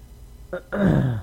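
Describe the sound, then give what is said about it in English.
A person clearing their throat: a short rasp followed by a longer, voiced, gravelly rumble, brief and fairly quiet. “You clear that throat. Clear it.”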